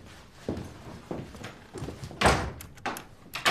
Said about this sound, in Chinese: 你锁门干啥呀？